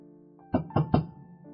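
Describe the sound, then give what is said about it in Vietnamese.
Three firm, evenly spaced knocks on a door sound over a faint, steady low hum. “Vừa nhấp ngụm nước thì bên ngoài có tiếng gõ cửa.”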